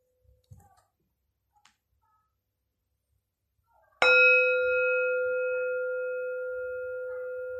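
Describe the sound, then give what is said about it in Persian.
Meditation bell rings out with a single struck note after a few faint soft clicks, then a clear, bright tone hangs and slowly fades, sustaining to the end. “اجازه بدین لحظاتی با فرکانس این زنگ افکار پراکنده از ذهنتون دور شه.”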